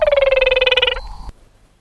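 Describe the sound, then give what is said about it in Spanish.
A small Brazilian frog's call, played from a recording: a rapid, pulsed, buzzing trill that is loud and steady for about a second, then stops abruptly, followed by a single click and quiet. “Es una ranita de Brasil.”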